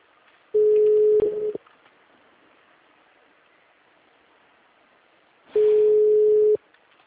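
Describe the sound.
A telephone ringing tone is heard in the earpiece as two steady one-second tones at a low-mid pitch. A long silent gap with faint line hiss separates them.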